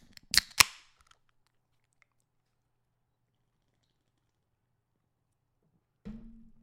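A beer can being cracked open: two sharp, loud clicks in quick succession, followed by near silence for several seconds.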